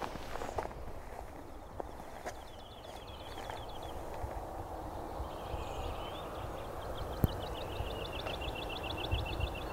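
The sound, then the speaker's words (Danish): Woodlark song in two faint phrases of rapid, evenly repeated high notes, heard beneath loud, steady crunching footsteps that continue throughout. “Der er hedelærke, der synger heroppe bagved, som flyver rundt og siger ly, ly, ly, ly, ly, ly, ly.”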